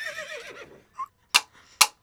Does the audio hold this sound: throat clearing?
no